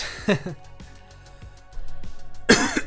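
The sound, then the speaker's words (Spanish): A cough breaks out twice, a short harsh burst near the start and another near the end, with quiet murmur between them. “ustedes disculpen la tos”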